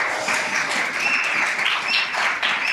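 Church audience at Christchurch Midrand applauding a returning guest, a steady, even wash of clapping from many hands with no pause.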